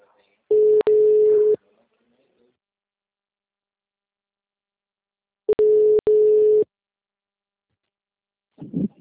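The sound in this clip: A telephone line tone sounds while a call is being placed. Two steady, one-second electronic tones are separated by a long silence, and a voice begins faintly at the end.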